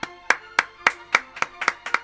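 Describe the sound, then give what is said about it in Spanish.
Clapping by a small group, sending off departing friends at the end of a season: a run of about nine sharp claps in a loose, slightly uneven rhythm, moderately loud, with no voices. “vamos a despedir con un gran aplauso al amigo Chigrinsky. Y otro gran aplauso para el amigo de la Chinoas.”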